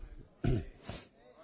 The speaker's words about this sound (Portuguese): pena que essa tosse minha está ruim.